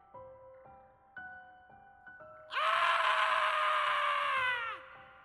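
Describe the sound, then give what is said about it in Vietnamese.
A strange scream echoing down from above: a loud, sustained, harmonic cry lasting about two seconds that dips in pitch as it fades. Quieter tones come before it. “Một tiếng kêu quái dị vọng xuống.”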